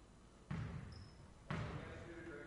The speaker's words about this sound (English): Takes his time, dribbles 3 times, spins it in his hands, puts it up, and off the front of the rim.